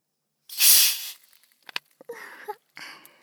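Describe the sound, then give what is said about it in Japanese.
A sharp, bright hiss of gas rushes out as a bottle of carbonated water is opened. It lasts about half a second and is followed by a few small clicks and rattles of handling. “刺激といえばこれ、炭酸水。”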